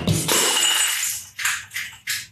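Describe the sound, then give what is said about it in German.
A half-full glass water bottle falls and breaks: a sharp, bright crash at the start decays over about a second. A few short, high clinks follow. “Was ist da jetzt runtergefallen? Meine Wasserflasche ist gerade kaputt gegangen. Fuck. Glas, oder? Ja, Mann.”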